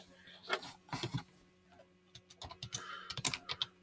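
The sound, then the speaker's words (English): Typing on a computer keyboard: quiet, irregular clicks and taps in uneven bursts, with short pauses between runs of keystrokes. “You just gotta type in something. Type in a beginning of a story.”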